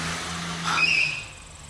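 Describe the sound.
A car drives away: a brief swell of engine and tyre noise with a whining tone rises over a steady low hum, then fades quickly.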